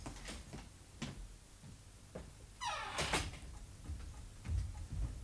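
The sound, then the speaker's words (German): Footsteps on an iron staircase: a few sparse metallic clanks spaced well apart, with a brief squealing creak partway through. “Da ist jemand auf der Eisentreppe. Sei mal still.”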